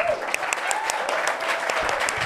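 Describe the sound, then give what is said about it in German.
Applause from a small group, individual sharp claps standing out in an uneven rhythm over a softer layer of clapping, fairly loud and steady throughout. “Wir müssen applaudieren”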